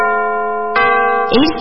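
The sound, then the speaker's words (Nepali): A radio time-signal chime marking six in the morning: a sustained, bright harmonic tone, then a second, higher note joining partway through, after which a voice begins speaking. “समय सूचक अहिले बिहानको 6 बज्यो।”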